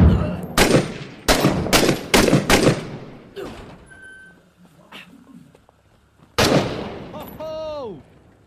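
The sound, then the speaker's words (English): Gunfire in the military shooter video game Six Days in Fallujah: a run of loud, rapid shots, then sparser, quieter pops, then another loud burst near the end, with a voice heard briefly. “Where was all the shots coming from?”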